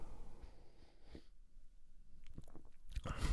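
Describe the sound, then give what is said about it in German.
A sip of Aecht Schlenkerla Weizen, a smoked wheat beer from Brauerei Heller in Bamberg, heard as soft, quiet mouth and swallowing noises with faint breathing. A brief louder rustle comes at the end. “Und nehmen wir lieber noch einen Schluck, um es euch genau beschreiben zu können.”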